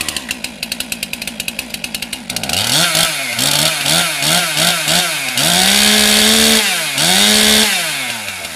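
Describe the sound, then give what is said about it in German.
A chainsaw carves a Mozart statue from a wooden log on the Bürgerbräu grounds in Würzburg. The engine starts with a loud, regular putter, then roars through repeated revving surges, its pitch climbing and falling before holding a high whine. “Ein letztes Mal hallt die Motorsäge über das Bürgerbräugelände und dann steht er da. Ein Mozart für Würzburg, gesägt aus einem Holzstamm.”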